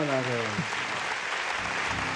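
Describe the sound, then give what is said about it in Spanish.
Audience applause at a music event honoring survivors of the California wildfires, a dense, steady clatter of clapping for the full clip, with a voice briefly trailing off at the start. “por favor, un gran aplauso para...”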